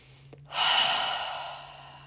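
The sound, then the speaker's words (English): One deep breath starts abruptly as an airy rush and then tapers off gradually over about a second and a half. It is heard alone at modest volume over a faint low hum. “sometimes I just take a nice deep breath.”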